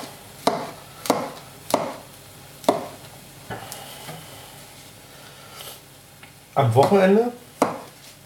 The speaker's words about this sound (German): So, Champis klein schneiden.